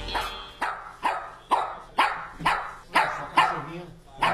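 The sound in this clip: Dog barking in a steady, evenly spaced series of sharp barks, each with a quick attack and short fade, moderately loud and with no other sound between them.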